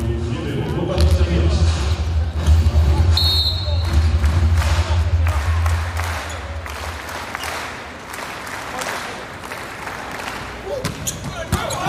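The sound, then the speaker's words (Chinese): A serve ace in a Chinese men's national volleyball match. A crowd applauds and roars with a low, sustained drone, a few ball thumps stand out, and commentators talk throughout. “好发球，杨宝奇发球直接得分，中国队重新领先”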